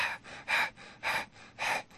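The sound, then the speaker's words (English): Hyperventilating, rapid breathing through the mouth: quick, rhythmic gasping breaths that alternate between louder and softer pulls of air, many in two seconds, with no talking. “Now, that's hyperventilation.”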